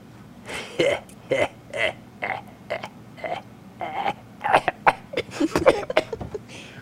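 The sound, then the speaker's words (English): Someone coughs and chokes as if something is caught in the throat, with many short, rough bursts in an irregular rhythm that grow denser and harsher toward the end. “So are you okay, Palpatine? Something caught in my throat.”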